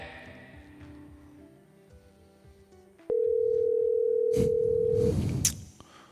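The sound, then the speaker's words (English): A steady, single-pitched telephone dial tone sounds while a call is being placed. It holds loud for about two seconds over fainter background sound, and a few noisy bursts land near its end. “All right, let's call Corey.”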